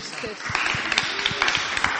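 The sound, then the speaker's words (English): Audience clapping as a man is introduced and comes up to speak, a scatter of irregular, moderately loud claps mixed with talking voices throughout. “So a lot of pressure clapping at the beginning before I've said anything.”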